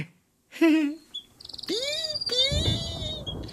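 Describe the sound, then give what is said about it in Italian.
A canary chirping: a few bright, high chirps and rising whistled notes in quick succession, fairly loud, with some lower rough sound beneath them in the second half. “Cosa vuoi, canarino? Zucchero? Prendi, ingordo!”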